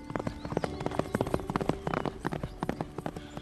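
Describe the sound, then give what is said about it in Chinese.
Horse hooves clip-clop in a quick, steady rhythm as a rider sets off, many crisp hoofbeats in a row at an even, moderate loudness. “庞统说完骑马先行。”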